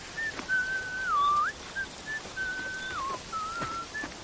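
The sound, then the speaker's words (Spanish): A man whistles a tune while walking through a forest, in several clear, high phrases with held notes and a few dipping slides in pitch, separated by brief pauses over faint background noise. “Tyrion y el mercenario Brom caminan por un bosque. Tyrion silba.”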